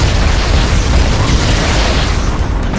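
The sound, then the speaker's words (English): Grenade explosions in a video game firefight against Marines: a loud, continuous rumbling blast that stays dense and heavy throughout, with no voices. “I am about to die. Grenades, look out.”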